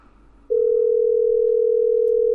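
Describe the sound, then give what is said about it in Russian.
A telephone dial tone sounds while a number is being redialed: a low murmur gives way after about half a second to a loud, steady, unbroken tone that holds at one pitch to the end. “Ага, еще раз набираю.”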